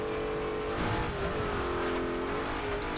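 Engine of a vehicle driving along a dirt road in a video game: a steady, continuous drone whose pitch wavers slightly throughout, heard alone with no voices.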